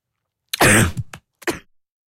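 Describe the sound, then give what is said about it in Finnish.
A person coughs after something went down the wrong way: a few harsh, rasping coughs, one long loud burst followed by a shorter one, then a final cough after a brief pause. “Anteeksi, meni kurkku väärään. Tämä kurkku on vielä tallessa, mutta jotain meni kurkku.”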